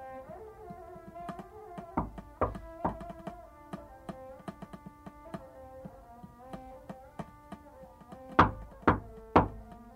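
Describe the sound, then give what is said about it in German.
Knocking on a door in a hotel salon: three sharp, loud knocks in even rhythm near the end, over a soft, steady bed of music. “es hat geklopft.”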